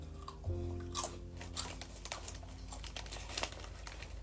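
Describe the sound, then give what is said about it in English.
Shrimp chips crunching as they are chewed: many irregular, crisp crackles and crinkles, fairly faint, with no talking. “Very fishy. These actually taste better than what I tried before.”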